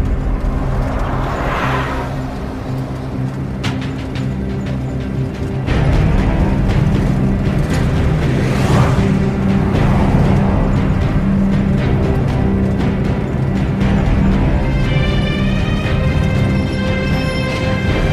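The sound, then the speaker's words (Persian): A truck engine starts and the truck drives off with a loud, continuous low rumble. The level steps up a few seconds in as it pulls away, with scattered rattles and clunks over the steady engine roar. “کامیون راه میفته.”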